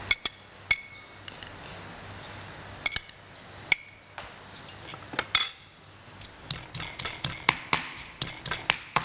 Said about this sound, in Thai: แต่อันนี้ใช้โขลกให้เข้ากันนะคะทำน้ำยำ